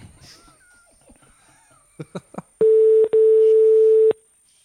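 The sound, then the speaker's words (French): An outgoing telephone call: a few quick clicks, then a steady, loud, mid-pitched line tone with one brief break, after faint rustling. “Bon, je vais appeler Bruno, deuxième numéro.”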